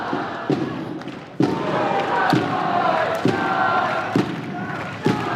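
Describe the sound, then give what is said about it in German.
A German football fan club marches through the street in a dense crowd with shouting and cheering, punctuated by six heavy, evenly spaced thumps about once a second over the steady roar. “Nach dem Treffen mit Jannik bin ich jetzt nochmal hier auf die Straße, weil hier gerade der deutsche Fanclub entgegenläuft. Ihr hört es schon im Hintergrund, ein Fahnenmeer von deutschen Flaggen.”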